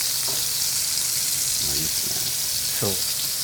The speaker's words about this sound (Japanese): 肉があの焼き色がついたらひっくり返しますで結構なこうしっかりこんがりと焼き色がついてる状態ですね